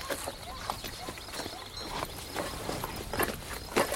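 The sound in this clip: Horses' hooves clip-clop at a walk in an uneven run of many soft hoofbeats over a constant background hiss.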